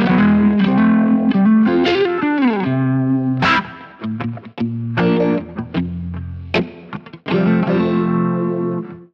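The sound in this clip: Distorted electric guitar played through a Kemper Profiler with a Hendrix-style tone rings out in expressive phrases of sustained notes, bends and quick runs, broken by short pauses, with a swirling chorus-like effect and no voices.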